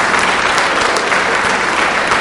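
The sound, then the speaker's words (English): An audience applauds musicians after a performance. The clapping is loud, dense and steady, a continuous wash of many hands with no gaps across the whole stretch. “round of applause for all our wonderful musicians today.”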